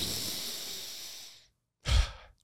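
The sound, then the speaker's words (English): A single deep breath: a long, steady airy inhale lasting well over a second, a brief silent pause, then a shorter, forceful exhale with a low, breathy rush. “One deep breath.”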